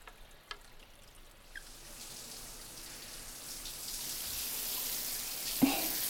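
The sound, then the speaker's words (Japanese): Hot water being poured over hair during a hair wash gives a soft, steady hiss of running and splashing water that slowly builds in loudness, with a brief sharper splash near the end. “たっぷりと髪の毛にお湯を染み込ませて。熱くないかしら。”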